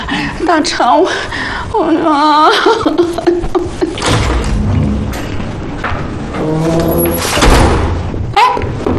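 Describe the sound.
A door shuts with a brief thud near the end, beneath steady conversation between people.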